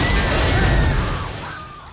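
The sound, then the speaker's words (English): Movie scene of a shark bursting out of a water tank to attack: a loud, low, crashing roar of broad noise that slowly fades over two seconds. “only for a shark to jump out of a tank and eat him”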